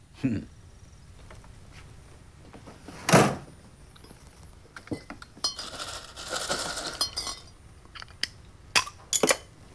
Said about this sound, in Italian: ma ora mi bevo una bottiglia di birra bella gelata. Che birra vuole? Che ne dice di una Miller Lite?